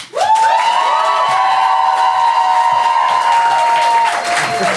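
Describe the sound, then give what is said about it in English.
A live studio audience applauds and cheers loudly, with a sustained high-pitched whoop riding over the clapping for about four seconds before it drops away. “Now, if you think Rosie and Shaprak and Ben are in the right, I would like you to applaud now.”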